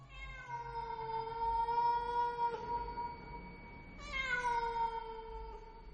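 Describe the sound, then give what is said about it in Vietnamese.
Long, drawn-out meows from a household pet cat, a couple of sustained, wavering tonal calls with a clear voiced quality, the second starting abruptly after a short lull, heard alone without talk. “Thì ra là con mèo thằng Cu Tuấn nuôi, nó nằm ở ngay đấy.”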